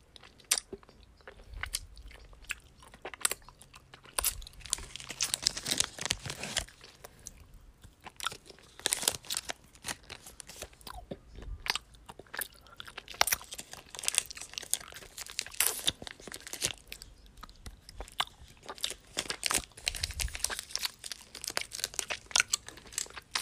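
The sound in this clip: Crunchy strawberry-themed snack being eaten: many crisp, sharp crunching bites and chewing sounds come in quick irregular bursts, fairly loud and close, with no talking.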